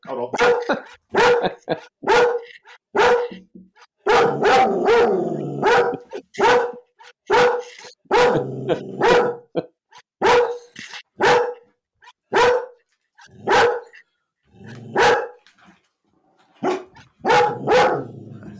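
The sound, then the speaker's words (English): Dog barking at a knock on the door: many loud, sharp barks in quick bursts with brief gaps between them, continuing steadily throughout. “we're about to have a knock on the door, and the dog's about to go.”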